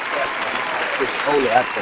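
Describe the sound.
Clapping hands from an audience cheering a football player, a steady patter running under a voice that talks over it throughout the short stretch.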